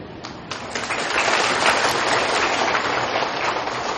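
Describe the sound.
An audience at a Buddhist dharma talk breaks into dense, sustained applause. The many overlapping hand claps swell within the first second and hold at a loud, even level.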